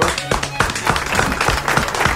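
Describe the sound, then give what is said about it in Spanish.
Audience applause at a live comedy show: a dense patter of many hands clapping at once, steady and fairly loud for the whole short stretch. “Por favor, ¿puedo tener un aplauso para esto?”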